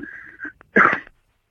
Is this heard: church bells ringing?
no